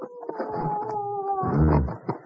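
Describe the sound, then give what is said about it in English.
A dog howls in one long, wavering, steady tone that gives way to rougher, lower, louder sounds before fading, with no talk over it. “You tell that dog to shut up, will you?”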